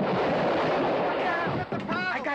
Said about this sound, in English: And it explodes.